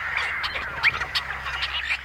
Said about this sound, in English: And what sounds like a snarling catfight? Are the combined voices of tricolored blackbirds in a California marsh.